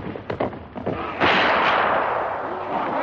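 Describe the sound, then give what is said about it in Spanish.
Gunfire in a 1954 samurai battle scene as peasants shoot down a fallen rider: a few sharp, muffled shots crack in quick succession, followed by a loud, sustained wash of noise. “Lo tiran del caballo y lo acribillan.”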